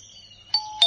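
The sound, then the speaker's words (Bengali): A doorbell rings with two quick, bright chime strikes in a ding-dong pattern, the second slightly lower, over a faint low hum. “ঘুম ভাঙল calling বেলের শব্দে।”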